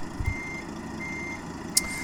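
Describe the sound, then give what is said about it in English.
Reversing beeps from a truck in a video game: a thin, high warning tone repeats steadily over a low engine rumble, with one sharp, brief click near the end. “Maybe if I hit them with the truck, they'll just,”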